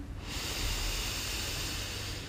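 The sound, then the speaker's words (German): A deep inhale through the nose: a steady, airy hiss that starts abruptly and holds for about two seconds at even loudness, with no other sound. “Tief einatmen durch die Nase”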